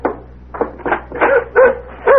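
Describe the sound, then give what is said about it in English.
A dog barks and yips at a door in a series of short, mid-pitched bursts, several in quick succession with brief gaps, loud and alone without talk. “He's a nice dog.”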